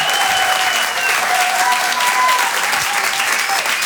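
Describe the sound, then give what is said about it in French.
Audience applause at a live comedy show, a dense, steady clapping that holds evenly throughout, with a few thin high whistles rising above it. “Faites du bruit, s'il vous plaît, pour Brahms.”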